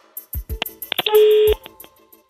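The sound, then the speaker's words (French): Telephone keypad tones as a number is dialed to ring a listener at home: a few short electronic beeps, then one longer held tone, mixed with some soft clicks. “On va faire sonner le téléphone chez vous. C'est parti, on est en train de composer le numéro.”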